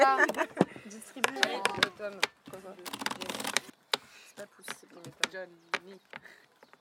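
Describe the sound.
Playing cards are shuffled during a card game, a rapid clattering riffle of many quick snaps under people talking.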